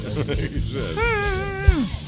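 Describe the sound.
A cat gives one drawn-out meow that rises slightly and then slides down at the end, while a person keeps talking underneath.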